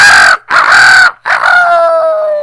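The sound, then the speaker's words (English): A rooster crowing loudly on its own, a cock-a-doodle-doo in three close parts, with the last note drawn out and sinking slightly as it fades. “the next morning came, the rooster crowed”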